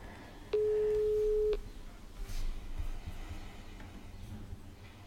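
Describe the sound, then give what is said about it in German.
A telephone ringing tone on an outgoing call: a single steady mid-pitched beep lasting about a second, followed by low line hiss and faint background noise. “ich rufe jetzt mal die Anne Schomburg an. Mal sehen, ob sie da ist.”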